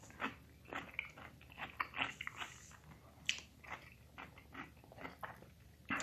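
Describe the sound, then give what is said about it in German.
Biting into and chewing a small pickled gherkin: many crisp, wet crunches at an irregular rhythm, fairly quiet and close, with no talk. “Aber ein Gürkchen, ich esse jetzt ein Gürkchen, das ist gut für die Nerven.”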